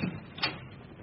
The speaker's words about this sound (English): Yes, yes, all right. I'll get a sheet from the linen cupboard. I won't be a minute.